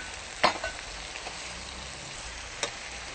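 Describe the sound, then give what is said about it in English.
Spinach being stirred into a dry curry in a pan, a low, steady sizzle with a couple of brief scraping clicks from the stirring, fairly faint. “Because it reduces, we need quite a lot of spinach in it. Now we mix it thoroughly.”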